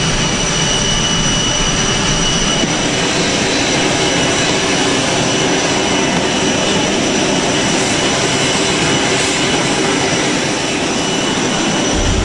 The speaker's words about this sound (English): From the press conference on Sentosa Island, a 20-minute motorcade to an airbase in Singapore to board his ride home, Air Force One.